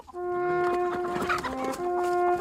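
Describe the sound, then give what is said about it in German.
Hungry hens clucking: many short, overlapping clucks over a steady tonal hum that runs throughout. “Die haben Hunger. Ach so. Ja, die Hühner,”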